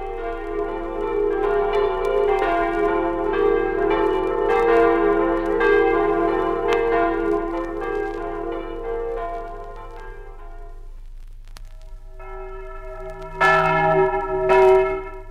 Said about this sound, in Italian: Ma chi la suona? Alla corda di questa campana di Timau su Incarnia una donna.